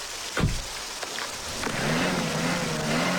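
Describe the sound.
Car engine revving as the wheels spin, stuck in spring mountain meltwater mud; a sustained, fairly faint engine drone that rises into a steadier whine, with no talk.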